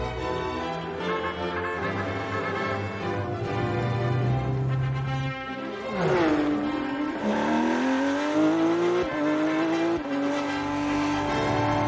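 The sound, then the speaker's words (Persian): Porsche car accelerating fast, its engine note dipping briefly and then climbing steadily in pitch as it revs up, loud and continuous with no talking. “میگم یه ماشین خیلی عجله داره. یه پورشه رفیق.”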